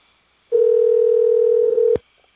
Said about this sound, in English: Dialing.